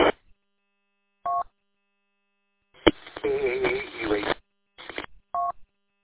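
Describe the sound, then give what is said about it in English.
Telephone keypad tones as a phone call is dialed: two short, thin dual-tone beeps several seconds apart, with a brief click and a noisy, warbling stretch of band-limited sound between them. “All right, I got to make a phone call real quick.”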